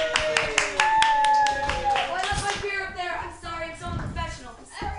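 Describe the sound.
Audience applause for a comedian being introduced at a comedy club show: dense, steady clapping that fills the whole clip, with voices mixed into the crowd noise.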